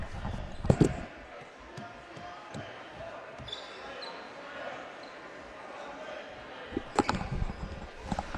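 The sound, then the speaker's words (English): Basketball bouncing on a high school court and then rolling away, with a few sharp thuds near the start and another cluster near the end over steady gym noise. “Beg your pardon there. I had to go get the ball that was rolling away.”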